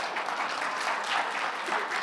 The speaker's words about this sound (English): Yeah, let's give him a round of applause for that.